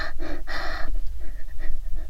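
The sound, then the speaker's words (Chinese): Deep, breathy inhaling and sniffing by a person at stockinged feet: a couple of loud, rushing breaths at the start, then quieter, softer breathing that continues to the end. “别再对着我的脚又吸又闻的了。你这样大口大口的吸气，到底是做什么？”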